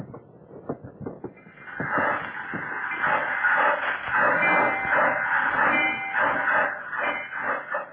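Slow-moving train giving a broad rattling rumble. Irregular clunks and knocks open it, then it settles into a steady, dense roar with scattered thuds. No talk.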